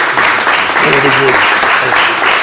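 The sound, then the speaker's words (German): A church audience applauds at a certificate presentation, with dense, steady clapping that fills the whole stretch and a faint voice beneath it. “Und jetzt überreiche ich die Urkunden und dann darf die Gemeinde auch mal applaudieren.”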